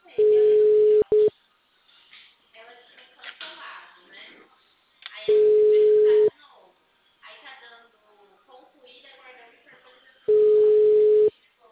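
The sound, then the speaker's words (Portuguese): Telephone ringback tone plays while a call is being placed: three long, steady, mid-pitched tones come at even intervals, each lasting about a second. The first is briefly broken. People talk in the quiet gaps between the tones. “Agora te chamando. Tá chamando.”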